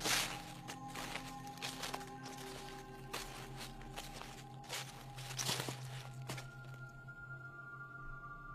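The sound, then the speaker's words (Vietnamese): Soft rustling footsteps outside the door of a hut by a swollen river, irregular shuffles and light thuds over a steady low hum. “tự dưng anh nghe có tiếng bước chân người cứ sột xà sột soạt ở bên ngoài cửa”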